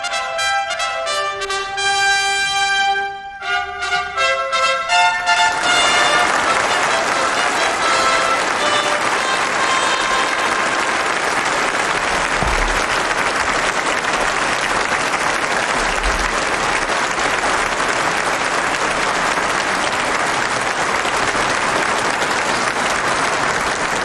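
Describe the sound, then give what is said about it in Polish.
Loud, sustained applause from the audience at a Nobel Prize award ceremony. Dense, even clapping continues without a break for over twenty seconds, and a brief tonal sound is mixed in over the first few seconds. “Niech wybrzmią te brawa.”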